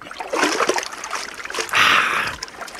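Splashing water as a person jumps into the water beside a ship: a rush of churning, splattering water with a louder surge partway through, lasting the whole moment without talk.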